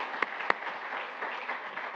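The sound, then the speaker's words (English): An audience at a public agency meeting applauds a staff member with a soft, steady wash of many hands clapping. A couple of sharper claps stand out early on. “Can we please give her a round of applause?”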